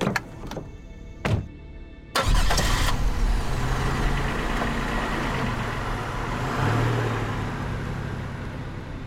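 A car engine starts up and pulls away on a road heading out of town toward a farm. A few sharp clicks come first, then the engine catches into a loud, steady roar that holds to the end.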